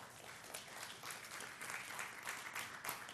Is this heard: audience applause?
yes